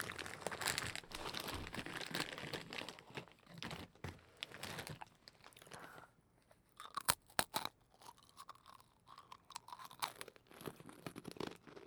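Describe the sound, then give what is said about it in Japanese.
Someone eating crunchy food up close: many quiet, crisp crunches and crinkling chews in an uneven rhythm, thinning out briefly midway before resuming. “こっちでももうちょっと食べちゃおう。”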